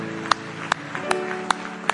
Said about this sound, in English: Now let's just give the Lord a big hand clap of praise tonight.